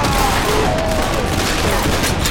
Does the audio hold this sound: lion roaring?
no